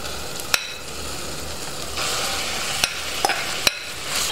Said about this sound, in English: And once that's happened, we're going to add in our beef mince. I'm using about 500 grams of beef mince.